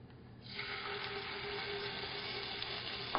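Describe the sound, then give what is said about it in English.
Faint, steady sizzle of whole garam masala spices, cinnamon, cardamom and cloves, sauteing in hot oil in a pan; the hiss comes in after a quiet half-second and continues evenly to the end. “some oil in a hot pan, add some whole garam masala. I've got cinnamon, cardamom, cloves, everything. So once you saute your whole garam masala, add shahi jeera”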